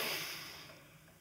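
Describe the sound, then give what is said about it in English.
A deep breath being let out, heard as a breathy, airy rush that starts strong and fades steadily over about a second. “I want you to humor me for a second and take a deep breath, everybody.”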